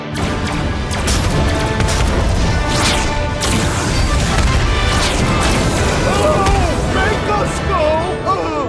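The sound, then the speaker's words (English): Starship weapons fire and explosions rage during a red alert battle against enemy ships: a dense, continuous barrage of booms, crashes and rapid volleys, with electronic chirps and voices in the din. “We're still in red alert! Target those ships and fire!”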